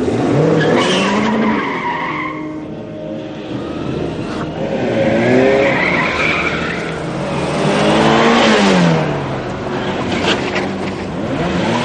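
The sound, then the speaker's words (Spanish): A red Porsche is started and driven off at speed from a restaurant parking lot, with loud engine revving and tires squealing, the roar rising and falling continuously. “Se acerca a un impecable Porsche rojo, accede a él forzando la puerta y tras arrancarlo, se dirige a toda prisa al camión portacoches que está próximo.”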